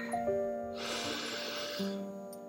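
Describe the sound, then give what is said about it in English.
A slow, deep breath in sounds as a soft, airy hiss that swells for about a second. It plays over quiet, steady sustained tones, with no talking. “Taking a deep breath in.”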